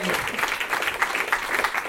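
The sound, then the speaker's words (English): Rapturous audience applause at a live comedy show, a short burst of many hands clapping with a voice talking over it. “I've just written end to rapturous applause. So, yeah. And they did.”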